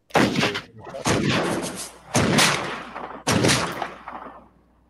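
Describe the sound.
Gunshot sound effect: a few loud, sharp blasts, each trailing off into a long rumbling decay before the next, with the last one fading away into near silence.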